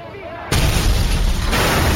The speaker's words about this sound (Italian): Dal gruppo dei sambabilini partono due bombe a mano.